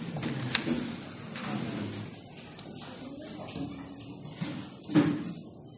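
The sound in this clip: Church audience sitting down during a Sunday service after a Bible reading: shuffling, creaks and scattered knocks of pews and seats, with a louder thump near the end.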